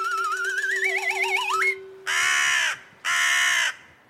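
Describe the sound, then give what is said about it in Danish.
A crow caws twice in loud, harsh, raspy bursts separated by a short gap. Before the caws comes a wavering, warbling tone over a steady low hum. “Har I gættet, hvad det er? Det er lyden af en krage.”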